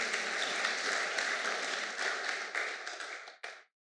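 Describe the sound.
A church audience applauds after a scripture reading in a French-language service. The dense clapping holds steady, then thins and fades, ending with one last isolated clap before silence.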